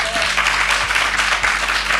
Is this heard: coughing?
no